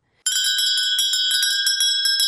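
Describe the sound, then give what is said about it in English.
A small, high-pitched bell is rung quickly over and over, giving many bright metallic strikes in a fast, steady rhythm that blend into a sustained shimmering ring, with no voices. “Ring that bell.”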